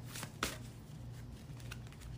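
Cards are shuffled for a past-life card reading: a short run of soft, papery riffling with a sharper flick near the start, over a low steady hum.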